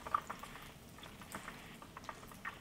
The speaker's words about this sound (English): I've got some, these sausages are cooking pretty fast.